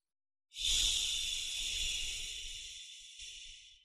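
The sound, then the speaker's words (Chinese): A slow exhalation with a hissing 'xi' sound, made as part of a breathing exercise meant to soothe the liver. One long, steady breathy hiss lasts over three seconds, starting abruptly and gradually fading, with no talk. “呼的时候要发吸的音， 哎，就是缓慢的呼气。”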